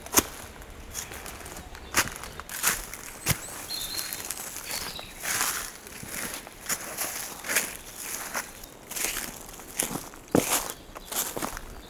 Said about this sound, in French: Et on va aller marcher à la rencontre de la forêt.